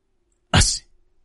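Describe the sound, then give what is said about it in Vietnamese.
A single loud sneeze from an old man in cold weather: one sharp, explosive burst lasting a fraction of a second, then quiet. “hắt xì một cái rõ to”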